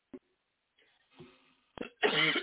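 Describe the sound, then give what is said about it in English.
Coughing from a person: a few harsh, noisy bursts spread across the moment, with quieter breathy throat sounds between them, ending in one sharp cough and a longer, louder rasping burst. “Excuse me, y'all, for the coughing.”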